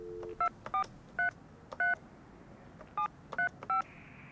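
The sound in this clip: Touch-tone beeps from a telephone keypad as a number is dialed: seven short electronic tones in two groups separated by a pause, after a brief low tone at the start.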